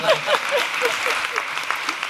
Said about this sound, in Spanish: Un aplauso, por favor.